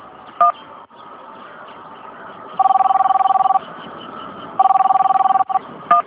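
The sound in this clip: An outgoing phone call rings out on the line with two long, pulsing ringback tones about a second each, separated by a gap. A few short beeps come through over a steady background hiss.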